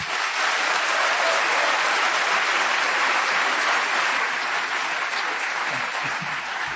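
Audience applause welcoming Noam Chomsky at a public forum: dense, continuous clapping at an even, loud level, easing slightly near the end, with no voices.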